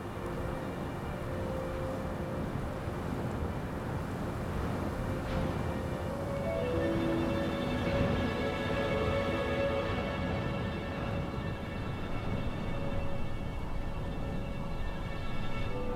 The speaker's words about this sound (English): Ah, we've landed on the top of a sand dune. Wow, I can already hear the wind.